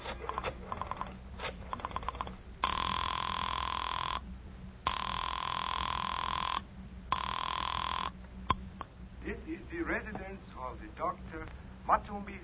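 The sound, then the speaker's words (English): A telephone rings on the other end after a number is dialed to reach a doctor. A few long, steady ring bursts separated by short gaps, with voices before and after the ringing. “I dug through the telephone book and I found Dr. Matson B. Forsythe's number and I dialed it.”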